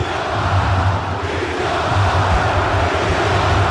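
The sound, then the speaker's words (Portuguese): Cruzeiro football supporters chant a player's name: a loud, continuous crowd roar with a low, rumbling, chant-like swell that holds steady throughout. “Vidalba, Vidalba, Vidalba é o que canta a torcida do Cruzeiro. Tá certo, torcedor ovacionando Vidalba.”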